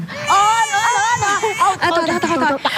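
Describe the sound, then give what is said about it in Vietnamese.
A baby cries in loud, wavering, high-pitched wails that break into short sobbing bursts toward the end. “Đây, đừng có khóc nữa nha con.”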